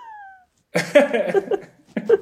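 A domestic cat meows in a drawn-out, wavering call followed by a shorter second cry. Both are clear and fairly loud, and a faint high tone comes before them.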